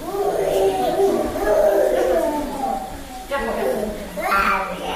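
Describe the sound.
A sick young child cries in an infectious diseases hospital, feverish with a temperature that will not come down. The wails are loud and continuous, with wavering pitch and a few short breaks, and a fresh burst of crying near the end.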